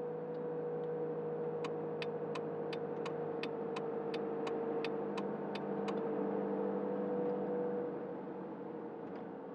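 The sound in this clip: A car pulls over at a gas station. Its engine holds a steady low hum while a run of evenly spaced, crisp clicks ticks through the middle, then stops as the engine drones on.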